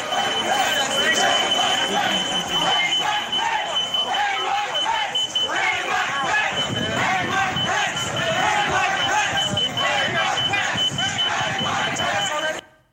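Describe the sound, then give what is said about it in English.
Security alarm at an open Capitol building door sounds continuously as a high, steady tone while a mob shouts and chants for the Vice President's death beneath it, many voices loud and rhythmic throughout before an abrupt cutoff. “You can hear the security alarm from the door in the background, and you can hear the mob calling for the death of the Vice President of the United States.”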